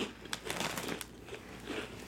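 Crunching of onion-flavored ring snacks being chewed: a few sharp, crisp bites among softer crackling chews, all fairly faint.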